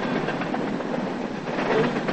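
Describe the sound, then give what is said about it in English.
A freight train with a silver freight car speeds past on tracks, making a steady, broad rushing rumble and rattle that holds an even loudness and swells slightly near the end. “watches the silver freight car speed past. He takes off toward the tracks.”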